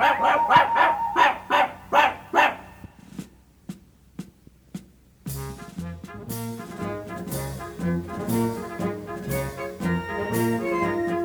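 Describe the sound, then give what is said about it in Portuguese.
A small dog barking off-key in a children's musical story: a rapid run of high, sharp yaps, then a few fainter, spaced yips, before band music starts and continues to the end. “Só quem está desafinando é o cãozinho Lulu.”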